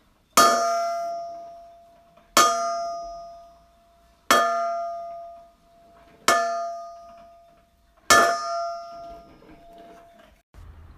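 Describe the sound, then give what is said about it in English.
A clock bell strikes five times at an even, slow pace. Each loud, bright clang has a metallic ring that fades before the next strike. “Clock bell.”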